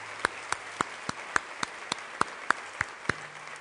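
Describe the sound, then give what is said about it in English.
Slow, evenly spaced hand claps, about eleven in a steady beat, for an audience in Palo Alto at a Commonwealth Club event. The claps are faint and sharp, with quiet gaps between them. “Our audience here in Palo Alto, let's give them a hand.”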